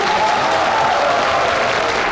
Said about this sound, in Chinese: 让我们有请两位新人的父母上台，给这对甜蜜的小夫妻送上世界上最真挚的祝福，掌声有请。